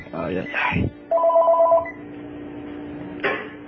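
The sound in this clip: A telephone rings again for a repeated incoming call, sounding as a short electronic ring tone amid people talking.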